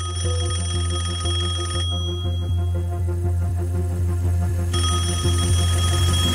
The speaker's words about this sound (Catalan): A la tauleta d'una sala d'estar, un telèfon.